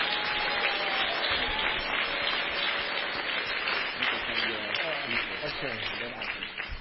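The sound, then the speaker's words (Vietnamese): An assembly gives a round of applause to thank a man, a dense, sustained wash of clapping from many people. Voices rise within it in the second half, and the clapping thins slightly toward the end. “Xin hội đồng một tràng pháo tay để cảm ơn anh Nguyên.”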